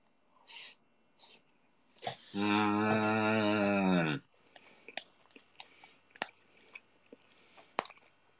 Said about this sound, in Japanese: 今ハンバーグ食べてます